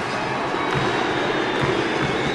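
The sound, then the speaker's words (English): Cheering from a student section at a college basketball game, the Orange Crush, producing a sustained, even roar of crowd noise that stays fairly constant throughout. “Lining the court are students, nicknamed the Orange Crush, who erupt into cheers.”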